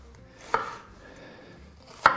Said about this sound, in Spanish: Esto lo guardo por aquí. Y vamos a cortar primero de esta forma.